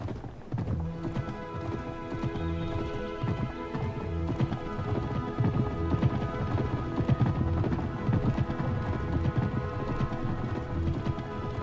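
Horses' hooves clip-clop steadily as riders ride away, a continuous, fairly loud rhythmic clatter that keeps going for the whole stretch.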